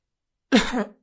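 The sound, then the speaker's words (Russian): A woman gives a single short cough, a rough throaty burst of about half a second that rings out alone after silence. “Кашлянула стоявшая позади Айена.”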